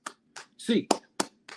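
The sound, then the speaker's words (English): Sharp hand claps in a rhythmic eight-clap count for UCLA Bruins fans, short crisp bursts separated by brief silences, with a speaking voice mixed among them. “it's time to get your hands up, Bruins fans. 8 clap time, baby.”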